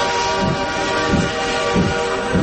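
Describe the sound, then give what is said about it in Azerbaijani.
A departing train as a sound effect: a loud, continuous rumble of rolling wagons with a low wheel clatter that repeats a few times at a regular pace. “Diqqət, diqqət. qatarı 101.7 FM stansiyasından yola düşür.”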